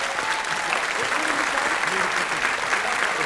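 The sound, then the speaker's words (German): Audience applause at a live stage show: thick, continuous clapping that stays loud and even throughout. “Vielen Dank für euren einen riesen Applaus für Daniel und Chris.”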